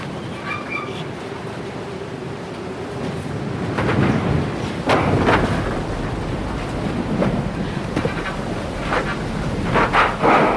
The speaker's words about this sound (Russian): Дует сильный ветер. Собирается буря.